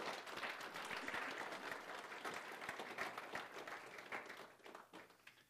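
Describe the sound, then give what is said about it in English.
A church audience applauds at a morning service at New Freedom Church. The clapping is dense and continuous, tapering off near the end. “You guys give them a hand this morning. Wasn't that great?”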